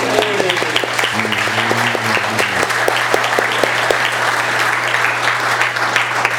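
Steady applause from an audience congratulating a new father, a dense, continuous patter of clapping that holds at an even level from start to finish.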